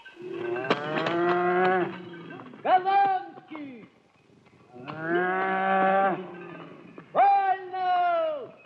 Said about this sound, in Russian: Коровы становятся в один ряд.